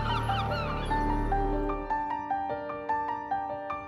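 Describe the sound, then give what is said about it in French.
Seagulls cry in the Morbihan: a few high, yelping calls at the start over sustained musical tones, which then give way to rhythmic plucked notes. “Dans le Morbihan, même les goélands écoutent Radio Corrigan.”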